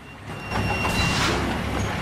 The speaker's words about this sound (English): Riley spots Cholo's truck as it pulls up.